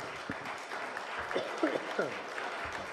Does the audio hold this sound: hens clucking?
no